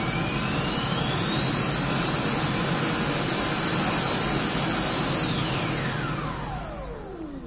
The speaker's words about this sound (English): Let's switch on a jet engine. Moving on the runway. Getting ready for takeoff.